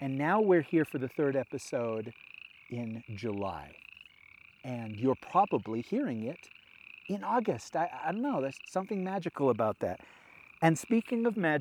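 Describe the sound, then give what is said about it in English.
Frogs croak by a pond, a steady chorus running beneath a person talking throughout. “I came out here by the side of the pond where you could hear the frogs singing.”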